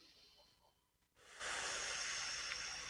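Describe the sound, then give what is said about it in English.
A long breath drawn in by a person: after a quiet, near-silent pause, a loud, steady, breathy rush of air starts about halfway through and runs to the end. “Take a breath.”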